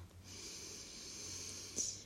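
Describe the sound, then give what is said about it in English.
A deep belly inhale during a guided breathing exercise: a steady, soft, airy rush of breath drawn in for nearly two seconds, with a slightly sharper catch near the end. “Let your belly actually expand. Relax. You can stop sucking it in for now. All right, inhale.”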